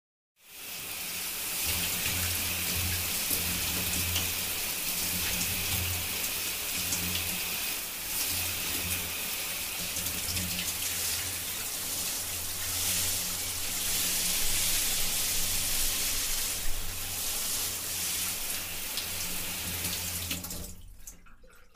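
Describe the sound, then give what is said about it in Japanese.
Water runs steadily from a tap to rinse off, a continuous bright splashing hiss that holds evenly for about twenty seconds before stopping abruptly. “念入りにできたかな。そしたら流しますね。”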